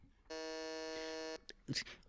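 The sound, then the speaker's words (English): A quiz-show buzzer pressed by a contestant gives one sustained, steady electronic tone lasting about a second. It then cuts off, followed by a few brief faint voice sounds. “He's buzzed in first.”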